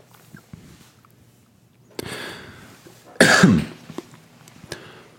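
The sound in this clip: A single sharp cough from a tickle in the throat, preceded by a softer rasp, with faint background noise around it.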